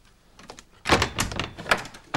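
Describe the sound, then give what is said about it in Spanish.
A door being closed, heard as a sudden burst of clattering, knocking thuds followed by a few more sharp knocks and rattles, moderately loud and with no voices. “Cierra la puerta.”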